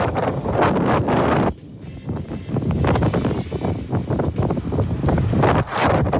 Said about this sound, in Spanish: Este es el audio del video de Coyhaique, del viento.